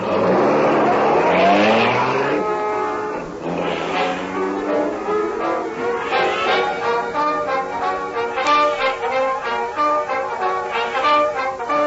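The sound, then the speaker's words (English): A car drives off at speed, its engine revving hard with the pitch climbing over the first two seconds. A loud, steady drive follows with sustained engine tones. No one talks. “You take the wheel, Cato. Let's see how soon you can get us to the old factory.”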